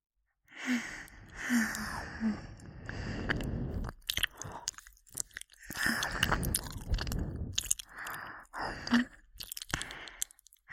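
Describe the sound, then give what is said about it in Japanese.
Biting sounds, pressing a bit harder: repeated wet, crunchy mouth noises with soft breaths and gasps between them, uneven in rhythm. “もう少し強めに噛むね。”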